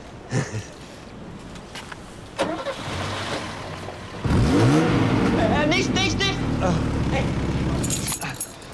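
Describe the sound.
A car engine starting after a spark plug check: a few clicks and rattles come first, then the engine catches with a sudden loud onset and runs on in a steady low rumble, with voices talking over it.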